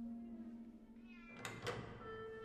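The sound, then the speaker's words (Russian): A cat meows faintly in a corridor: one brief call rising out of a low steady tone that runs underneath. “В коридоре сидит кот Филча.”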